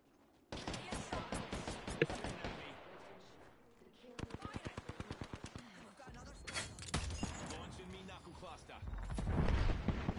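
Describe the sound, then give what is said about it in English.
Gunfire in a video game firefight, with enemies sniping from higher ground. Two long runs of rapid, evenly spaced shots are followed by denser, crashing bursts and a swelling low rumble toward the end. “And they are now sniping us from up there.”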